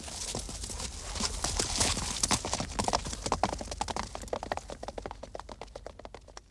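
Horse hooves clip-clopping as a rider rides off to his unit: many rapid hoofbeats, dense and busy at first, then settling into a sparser, more regular rhythm that grows slightly fainter toward the end.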